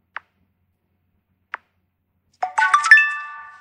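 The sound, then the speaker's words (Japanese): An app's task-completion sound effect plays: two soft, quick ticks spaced apart, then a bright rising run of chime notes whose last tone rings out and fades. “そのアプリの中で最重要なアクションをしたときに流す音とか、はい、タスクを完了したときとか注文が完了した時とか、そういう時に流すアニメーション等みたいな感じですね。 はいはい、で、流してみます。”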